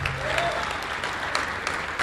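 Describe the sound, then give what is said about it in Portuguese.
Congregation applauding at a church service: dense, steady clapping from many hands that holds at an even loudness for the whole two seconds. “Vamos aplaudir mais ao nome de Jesus.”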